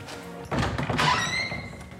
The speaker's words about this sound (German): Jetzt öffne ich mal die Tür zu unserem Ausstellungsraum.